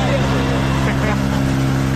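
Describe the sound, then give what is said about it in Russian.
A motorboat's engine drones loudly and steadily as the boat crosses the Dnieper river, a constant low hum with a rough, noisy wash over it that holds at an even level for the whole stretch. “Бойцы показали видео. На нем они пересекают Днепр на лодке. Вот как это выглядит.”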